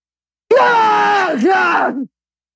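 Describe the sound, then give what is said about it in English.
A voice imitating a very loud sneeze that sounds like a sudden yell: one long, loud, strained cry of about one and a half seconds, dipping in pitch partway through, alone against silence. “his sneezes, just for example, you can hear across the house. And it's like someone is yelling suddenly across the house. So just loosely, it sounds like this.”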